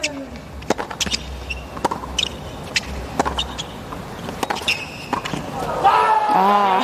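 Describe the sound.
A tennis rally in a professional match: the ball is struck back and forth in many sharp, crisp hits at an irregular rhythm, with a voice rising at the end.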